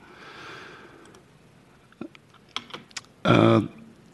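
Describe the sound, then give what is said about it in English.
Typing on a computer keyboard to enter comments into a public comment web form: a few sparse, crisp key clicks, then a louder, denser burst near the end. “The comments are typed in here.”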